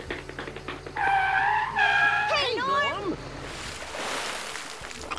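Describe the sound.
A forklift skids, heard as loud, sliding tonal squeals that bend downward in pitch, followed by a burst of broad rushing noise.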